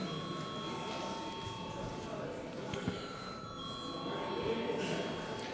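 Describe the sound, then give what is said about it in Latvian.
An electric bell rings continuously in a parliament chamber to call a vote. It gives a steady, faint metallic tone that lasts the whole clip over a low murmur of background noise. “lūdzu zvanu.”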